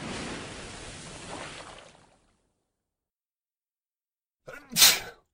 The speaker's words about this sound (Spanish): ¿Sabías que cuando estornudas, el aire sale de tu nariz a una velocidad media de 160 km por hora?